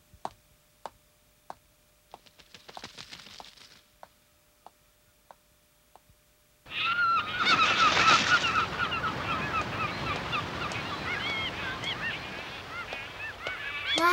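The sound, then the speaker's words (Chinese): A flock of seagulls calling: many loud, overlapping squawks burst in suddenly and carry on, preceded by a series of sharp, regular ticks and a brief rustle. “好多海鸥啊！”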